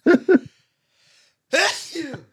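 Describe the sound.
A sneeze from a person who is sick: two short, sharp catching bursts, a brief pause, then a louder and longer noisy burst.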